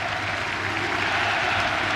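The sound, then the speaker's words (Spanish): Unión La Calera fans applaud in the stands during a minute of respect before a Chilean football match against Colo-Colo, an even, sustained crackle of clapping that never breaks. “Y es un minuto con aplauso por lo que vemos ahí del hincha de Unión La Calera.”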